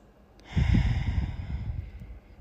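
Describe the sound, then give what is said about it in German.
A single ordinary breath in and out during a guided breathing exercise, heard as a soft, airy rush of air that swells and then slowly tapers off, with no talking. “Für die Übung nimm einmal einen ganz normalen Atemzug ein und aus.”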